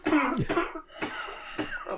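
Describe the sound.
Coughing brought on by laughter: several harsh, breathy bursts in an irregular run, with the first ones loudest and the later ones shorter and softer.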